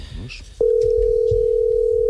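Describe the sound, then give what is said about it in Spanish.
An outgoing telephone call gives a steady, unbroken, mid-pitched line tone. It starts sharply after a brief faint sound and holds at an even level to the end. “Estamos llamando.”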